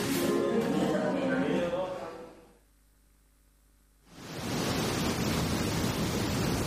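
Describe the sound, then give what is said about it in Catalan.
Strong wind blowing at night: a loud, steady rushing that drops away to near quiet for a moment, then gusts back up to full strength. “Collons, no para de bufar. Quina nit que ens espera.”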